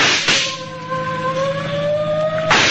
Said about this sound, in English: Hey, they're shooting back.